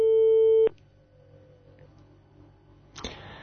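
A single loud, steady telephone line tone sounds for under a second on a call that goes unanswered. It cuts off to a faint low hum, followed near the end by a short burst of clicking noise.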